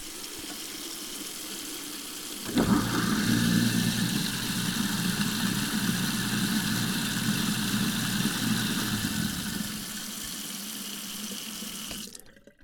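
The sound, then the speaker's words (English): Garbage disposal running in a kitchen sink, kicking in abruptly after a short quiet stretch and holding a loud, steady grinding hum mixed with rushing water for several seconds before cutting off near the end. “I'm going to stick this recorder down almost in the sink and run the garbage disposal and let's see what happens to the limiter.”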